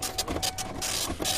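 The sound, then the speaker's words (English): A credit card processing machine runs through an approved transaction, giving off a busy mechanical buzzing and whirring in uneven pulses, like a small receipt printer, steady and moderately loud across the short stretch. “That's the sound of those credit card processing things. Not being declined.”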